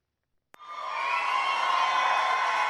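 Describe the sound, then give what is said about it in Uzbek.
A crowd cheers and applauds Donald Trump at a South Carolina event. After a brief silence the sound bursts in suddenly and builds into a steady, loud wash of cheering and clapping. “Janubiy Karolina shtatida milliarder tadbirkor Donald Tramp guldiroz qarsaklar bilan kutib olindi.”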